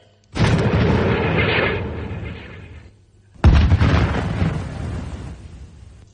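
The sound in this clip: Two heavy artillery gun blasts fired in the Huachun mountains, each a sudden deep boom followed by a long rumbling decay lasting a couple of seconds, the second shot slightly sharper at its onset.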